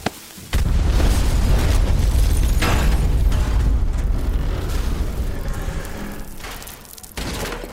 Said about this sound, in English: Pipe bomb! Move it!